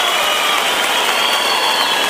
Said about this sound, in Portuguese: Pode aplaudir a nossa família, realmente é uma geração de cantador. Craveiro e Cravinho, aplauso de vocês.